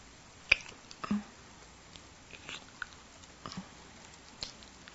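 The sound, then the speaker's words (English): Faint, wet lip smacks and soft clicks of a slow, lazy, sensual kiss, a few small mouth sounds spaced irregularly over a quiet background. “Just a lazy, sensual, delicious kiss.”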